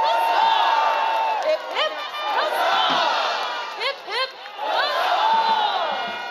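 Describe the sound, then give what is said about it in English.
A crowd at the Renaissance Pleasure Fair in Irwindale shouts hearty huzzahs for a costumed Queen Elizabeth. The loud, massed cheers swell in a few waves with brief dips between them. “Her Majesty herself, Queen Elizabeth, with three hearty huzzas. Hip, hip!”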